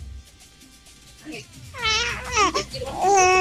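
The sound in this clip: A baby babbles in a radio booth, starting with a quiet stretch and then breaking into a few loud, high, wavering bursts of babble and whiny cries.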